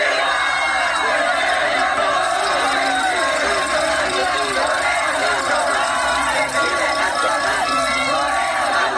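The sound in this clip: A large festive crowd of about 50,000 chants together at La Minerva during a celebration, a dense, continuous roar of many voices that holds steady and loud throughout.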